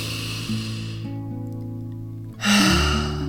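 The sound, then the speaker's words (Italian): A deep inhale taken during a guided meditation, a single broad breathy rush near the end, heard over soft sustained background music with no talking. “Facciamo un bel respiro profondo”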